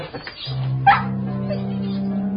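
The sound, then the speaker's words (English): A dog gives a single short yip with a whimpering edge, a brief call over a steady low hum. “There's a good doggy.”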